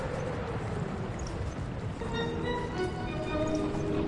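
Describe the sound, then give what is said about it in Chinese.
Hooves clip-clop steadily as a horse-drawn carriage travels on through the dark along an uneven road after rain, in strong wind. The continuous rumbling noise carries on throughout. “马车在黑暗中继续前行”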